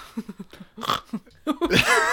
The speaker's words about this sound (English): Whoa! That was loud. I'm so sorry. Holy shit. That snort just peaked the audio.